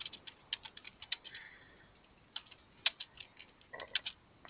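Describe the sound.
Computer keyboard typing: many faint, irregular clicking keystrokes in uneven bursts, with short pauses between runs and no voices.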